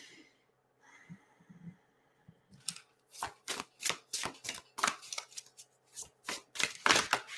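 A deck of message cards is shuffled and handled: faint soft rustling at first, then a long run of many crisp, rhythmic riffling bursts at moderate to low volume.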